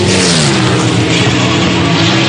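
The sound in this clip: Race cars roar at a racetrack, a loud, continuous engine drone with steady tonal bands and no letup across the whole stretch, with no voices.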